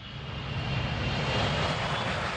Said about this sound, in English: That's the sound of the Concorde, the plane that was famous for traveling faster than the speed of sound.